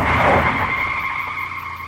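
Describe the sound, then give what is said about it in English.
Tires skid loudly as a car brakes hard to avoid a vehicle stopped in its lane, producing a sustained high squeal over a low rumble that tapers slightly across two seconds. “slammed my foot on the brake.”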